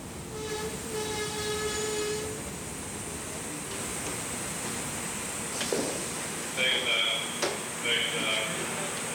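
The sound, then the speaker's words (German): Express train from Passau to Vienna arriving at a station platform, with a steady broad rumble and hiss throughout, a sustained high tonal whine early on, and bursts of shrill squealing tones near the end. “Eilzug 523 von Passau nach Wien Westbahnhof. Planankauf 1326. Fährt Bahnsteig 2. Bitte Vorsicht.”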